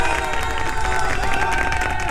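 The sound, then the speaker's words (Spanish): Audience applause mixed with cheering and shouts on a family-themed show, a continuous, lively crowd roar of clapping and raised voices that holds steady throughout. “Así que un aplauso para todos los que deciden dedicarle los fines de semana a estar con la familia completa.”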